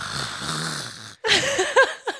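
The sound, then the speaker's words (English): A voice imitates the loud yawn of a very large man. A low, drawn-out groan breaks off briefly, then returns as a louder, breathy, gravelly burst with a few sharp snorting peaks. “when you yawn, you sound like this.”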